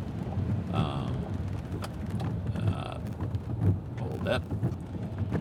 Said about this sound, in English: we've canceled small groups for tonight because it's raining. We're having a flash flood watch, in fact. So it's been raining pretty consistently